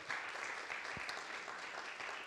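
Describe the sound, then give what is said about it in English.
Congregation applause for the worship team at a church morning service: soft, continuous clapping from many hands, even and unbroken throughout. “I think we should applaud the worship team this morning, because they did such a good job in leading our worship this morning.”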